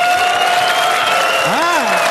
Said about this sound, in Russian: Чувствуете, мужики хлопают, им все пофигу.